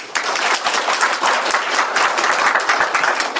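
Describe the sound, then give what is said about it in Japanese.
Sustained audience applause at a live talk session: dense, steady clapping from many hands runs evenly through the whole stretch at a fairly loud level, with no speech over it. “拍手”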